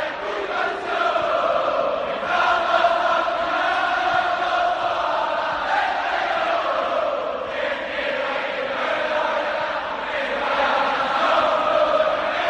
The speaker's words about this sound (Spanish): Este es el sonido de la afición del Betis.